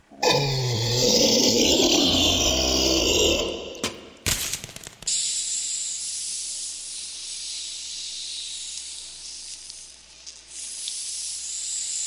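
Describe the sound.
A garbage monster's wax attack hisses, opening with a loud, rough, roaring hiss for about three seconds. After a short break and a sharp burst, a long, steady, high hiss follows.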